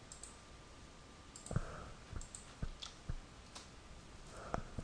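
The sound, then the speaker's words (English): Typing on a computer keyboard: a few faint, sparse key clicks at an irregular pace over a low steady background, with no voices. “I typed it in”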